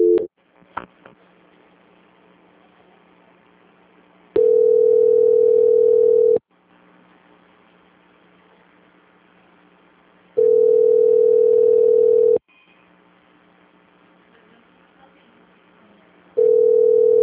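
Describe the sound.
A telephone line tone plays while a call is being transferred: three long, steady, mid-pitched beeps of about two seconds each, separated by quiet gaps on the line of roughly four seconds, with a few faint clicks at the start.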